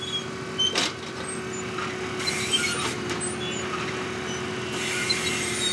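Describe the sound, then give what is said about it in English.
No-till planter on an Iowa farm, its sharp steel wheels slicing through last year's corn stalks while planting soybeans. A steady machinery drone runs throughout, with a few brief crackling crunches. “This Iowa farmer is planting soybeans without plowing up the soil. Sharp steel wheels cut through last year's corn stalks, opening up a narrow slit in the soil.”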